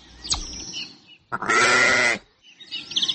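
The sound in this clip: A sheep bleats once, loud and quavering, for under a second between quieter stretches of faint background noise.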